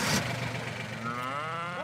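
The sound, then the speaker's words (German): A single low moo from German Angus beef cattle on a farm, a drawn-out bellow that rises in pitch toward its end and is heard alone. “Ihre Deutsch-Angus-Rinder sind eine reine Fleischrasse.”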